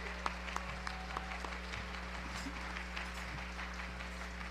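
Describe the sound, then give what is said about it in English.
An audience applauds a performer with faint, scattered claps that continue steadily throughout. “Let's give him a big hand.”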